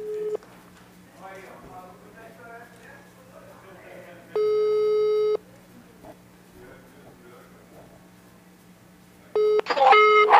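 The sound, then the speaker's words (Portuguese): Steady electronic telephone tones as a call is placed, with short beeps at the start and end and one longer tone of about a second in the middle, while people talk beneath them. “fica ligado, que a Isabela vai ligar para você”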